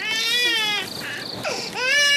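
A baby crying in high, wavering wails: one long wail, then broken, weaker sobs, then another strong wail rising again.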